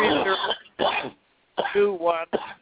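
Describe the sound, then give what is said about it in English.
Coughing and throat clearing come through a phone call as several harsh, raspy bursts separated by short gaps, with the narrow, thin quality of a telephone line. “whoever's coughing, please mute your phone. You guys are making lots of noise.”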